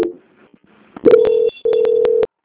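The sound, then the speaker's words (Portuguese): Telephone call-transfer tone on a bank's customer-service line: a steady mid-pitched electronic tone in two sustained bursts separated by a brief gap, with faint clicks, and no talk. “Continua na linha. Transferência.”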